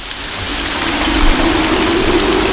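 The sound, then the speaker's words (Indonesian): Steady rain from a favourite film scene, a dense, even hiss that holds at a constant loudness throughout, with a low hum running beneath it. “Hujan nih.”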